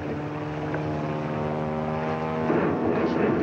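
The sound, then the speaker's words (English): A propeller airplane passes low overhead, its engine a steady, droning hum with strong layered harmonics. The drone stays loud throughout and swells slightly toward the end. “That airplane up there, it probably belongs to the police.”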